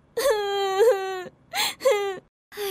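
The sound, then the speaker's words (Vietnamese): A child cries in drawn-out, high-pitched wails broken by short gasping sobs, a few loud bursts with brief pauses between them and no other sound. “Ai làm gì mà cậu khóc vậy?”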